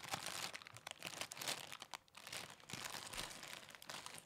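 A hand rummaging in a crinkly plastic bag of cookies and cream Rice Krispies cereal: continuous, irregular crackling and rustling, fairly faint, with no voices.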